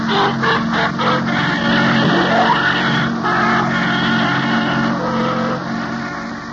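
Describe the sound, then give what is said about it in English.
A taxi cab drives away, its engine a loud, steady mid-pitched drone with a brief rising whine partway through, alone without talk. “See Frank get into the cab and drive away.”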